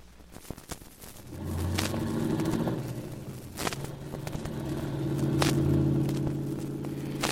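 A car starts off and drives, a few light clicks followed by a low engine rumble with a steady humming tone that swells and carries on to the end, without talk.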